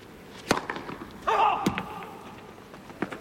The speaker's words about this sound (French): On vous laisse écouter les frappes de balle, tiens, une nouvelle fois.